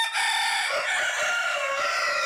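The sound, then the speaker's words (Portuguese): Two roosters crowing, a loud, drawn-out and bright crow that fills the whole clip with no other sound. “Dois galos cantando.”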